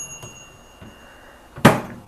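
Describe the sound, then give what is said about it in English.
A grill and air fryer combo's lid clacks open in a single dull thunk with a brief rattle, preceded by a couple of faint ticks and a low hum, with no voices. “And see, I can open it. I've got my grill plate inside, and there's baskets in here for the air fryer.”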